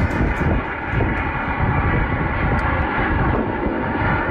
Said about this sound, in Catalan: Aquest és l'avió que ha hagut de fer un aterratge d'emergència per una falsa amenaça de bomba.